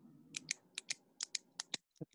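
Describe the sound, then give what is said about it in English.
Quick, sharp clicks from a retractable click pen, many crisp snaps in an uneven run, some paired closely together, each brief and bright against a faint low background. “And that is the click pen that you have in your hand.”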